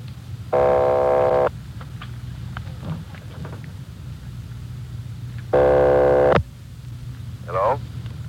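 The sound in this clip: A long-distance call rings through on the line as an operator rings a number: two long, buzzing ring tones about five seconds apart over a steady low hum, with quieter crackle between them.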